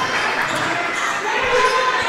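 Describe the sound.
A basketball is dribbled during a college game between Calhoun and Wallace State in the final minutes. A few dull bounces sit under steady crowd noise.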